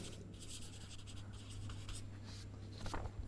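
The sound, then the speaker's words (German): Handwriting scratches steadily across a surface as someone writes out a word, a continuous dry rasp with small bursts of stroke noise and no voices. “jetzt muss ich schauen, dass ich es richtig schreibe, die Homo Nadenser.”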